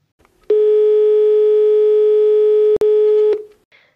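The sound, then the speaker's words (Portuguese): Telephone dial tone heard while placing a call to order something: a steady, buzzy low-pitched tone holds for about three seconds with one very brief break, then stops. “Hoje eu vim mostrar para vocês como é pedir alguma coisa por ligação, porque, gente, é um drama que vocês não têm ideia.”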